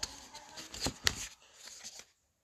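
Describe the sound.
Cards being drawn during a game of Pandemic, heard as quick papery rustles and sharp snaps in a few bursts, fairly loud, ending abruptly in near silence.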